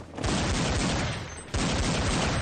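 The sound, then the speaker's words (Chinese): Loud, rapid pistol fire in a shootout among rocks, with dense overlapping shots forming a near-continuous barrage that dips briefly and then surges again. “两个人竟一边移动一边射击，依靠身法和周围的岩石作为掩体，躲避对方的射击。”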